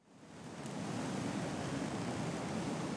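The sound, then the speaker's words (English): Wind blows as a broad, rushing hiss that swells in over the first second and then holds steady and fairly loud, with no voices. “The wind is blowing. The leaves are falling.”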